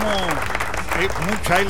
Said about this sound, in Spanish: ¿Dónde están los aplausos?